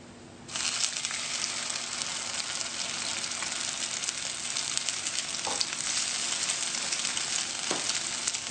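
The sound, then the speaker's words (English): Food sizzles and crackles in a hot pan, a steady hissing fry that starts after about half a second and holds evenly to the end, with a few brief sharper pops. “looks good. Pan is becoming nice and warm or hot.”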